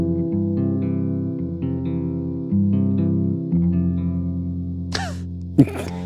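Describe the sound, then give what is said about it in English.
An electric guitar played through a Big Sky reverb pedal on a simple large hall setting strums several sustained chords that blend into a smooth reverb wash. Near the end come two brief, squeaky high-pitched string noises. “So that's the sound of the Big Sky. It's just a simple hall, simple large hall.”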